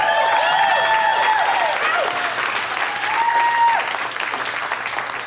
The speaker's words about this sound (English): And you should clap for that. You should clap.